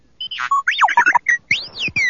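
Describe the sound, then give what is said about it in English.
Robotic droid beeps from a small domed droid beside a desk: a rapid run of chirps, warbles and whistling electronic sweeps that glide up and down in pitch, with no voices. “The rebel's droid, R2-D2, stood right where she'd left it, beside her desk, spinning its dome and beeping unintelligibly.”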